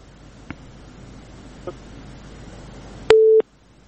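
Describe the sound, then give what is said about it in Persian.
A single short telephone tone beeps loudly after a call disconnects. Two faint clicks come before it over a low, steady line hiss. “تماس شان فکر میکنم قطع شده”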